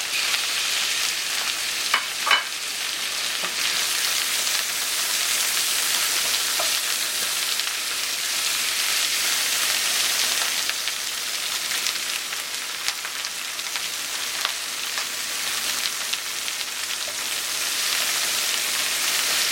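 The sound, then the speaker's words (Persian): Ingredients and onions sizzle as they are sautéed in a pan until their colour changes, a steady, loud hiss lasting throughout with a few sharp clicks of stirring and no talk. “دوستان همراه با پیاز می تفت می دهیم رنگ روش عوض بشه.”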